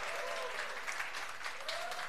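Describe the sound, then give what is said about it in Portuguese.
Audience applause follows a live music performance as a dense, steady wash of many hands clapping, holding an even loudness throughout. “Quem gostou, vai de palma pra nós.”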